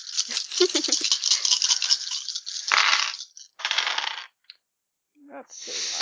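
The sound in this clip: Dice rattling and tumbling across a surface in quick clattering runs: a long first roll, then several shorter bursts separated by brief pauses, with a single light click between them.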